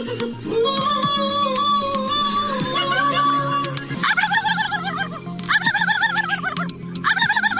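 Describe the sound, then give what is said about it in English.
Human voices imitating turkey gobbles at a turkey calling competition at the 57th annual Turkey Fair in France: first a sustained warbling call, then loud, rapid, rattling gobble bursts in quick succession. “a turkey call competition was held. Here are a few contestants doing their best to sound like a turkey.”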